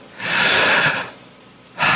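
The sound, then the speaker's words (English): A worship audience takes a deep breath together, producing a broad, airy rush of inhalation that swells and fades over about a second. After a short lull, another loud group breath begins. “Everybody just take a deep breath right now. Doesn't that feel good? Let's take another one.”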